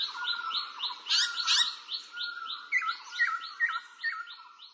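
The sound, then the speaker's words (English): Birds sing in a bright, high-pitched stream of many rapid, repeated chirps and short trilled phrases. The notes rise and dip in loudness in a steady pulsing rhythm, with no voices present. “I can hear the birds singing.”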